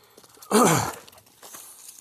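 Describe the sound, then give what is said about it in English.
Heavy breathing from someone climbing uphill with a 20-pound metal plate in a backpack: one loud, breathy exhale, then fainter, rougher breaths. “part of why you're hearing me breathing heavy is because I have a 20-pound metal plate in my backpack.”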